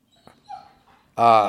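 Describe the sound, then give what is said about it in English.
A dog whimpers softly, a faint, thin, high whine that rises briefly, followed by a sudden louder voice at the very end. “My dog, I apologize.”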